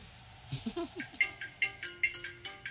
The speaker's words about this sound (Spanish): Miércoles, están llamando. No, me está autollamando yo para saber.